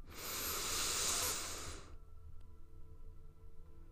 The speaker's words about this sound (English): Deep breath in.